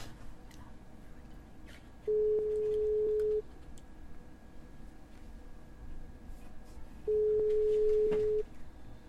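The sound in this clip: Ringback tone of an outgoing telephone call: two long, steady, mid-pitched tone bursts separated by several seconds of quiet background hiss.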